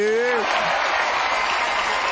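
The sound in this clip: Audience applause: steady, dense clapping that carries on to the end after a brief voice at the start.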